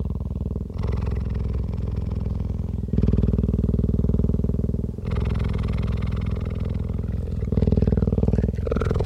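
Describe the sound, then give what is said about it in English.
A sleeping cheetah breathes with a deep, loud, continuous rumbling purr that alternates steadily between breaths in and out. “It's the sound of a cheetah sleeping.”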